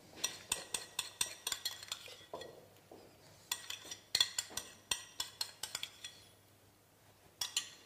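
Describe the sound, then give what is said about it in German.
Lemon zest is grated with a metal grater in a kitchen, making many quick metallic rasping strokes in an uneven rhythm with short pauses between runs. No voices are heard. “dann machen wir uns ein bisschen Abrieb von der Zitrone, das machen wir mit einer Reibe.”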